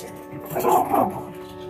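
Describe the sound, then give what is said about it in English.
Dogs barking indoors in a home: a couple of short, muffled barks rise briefly above a steady low background hum, with no talk over them. “And sorry about my dogs.”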